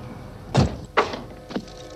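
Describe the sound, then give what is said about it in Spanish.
Dull thuds of a house front door being opened after people get out of a vehicle: three distinct knocking thumps, spaced about half a second apart, with no talk. “Bajan del vehículo y Kevin abre la puerta de la casa.”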